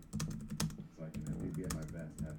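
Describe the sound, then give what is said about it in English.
Typing on a computer keyboard: many rapid, irregular key clicks, some sharper and louder than others, in a quick uneven run. “Oh, I'm gonna type what's coming this week though.”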